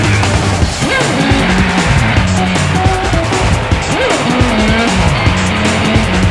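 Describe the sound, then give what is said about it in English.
Tires squeal from hot rod cars racing, over a continuous loud engine roar that stays dense and unbroken throughout, with repeated whining screeches layered on top. “What a set of wheels! Hot shots in the hot rod.”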